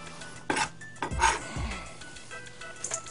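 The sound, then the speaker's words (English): Clinks and knocks as a chocolate and butter mixture is put into a bowl, with a few sharp clanks and dull low thuds, then quieter rattles, without talk. “So we're going to put it all in this bowl here.”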